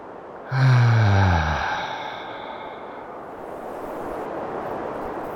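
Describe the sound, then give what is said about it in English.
A deep breath released as one long, audible, voiced sigh that drifts slightly down in pitch and fades, followed by quiet, steady background hiss. “Take another deep breath and release.”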